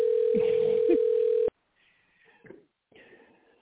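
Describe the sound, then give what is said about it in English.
A phone's ringing tone on the line: a steady single-pitched tone for about a second and a half with faint sounds beneath it, then stopping abruptly, followed by quiet, faint voices. “You let that phone ring one more motherfucking time. I'm hanging up.”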